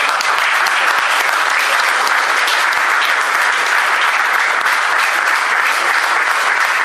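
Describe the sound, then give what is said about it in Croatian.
Loud, sustained applause from a church audience honouring a fellow member after prayer, a thick, continuous roar of many hands clapping at an even level throughout. “Jedan aplauz za našeg brata.”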